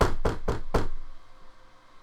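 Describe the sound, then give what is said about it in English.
Four hard, firm knocks on a door, loud and evenly spaced in quick succession, followed by a short fading tail and quiet. “There's a very hard, firm knock on your door.”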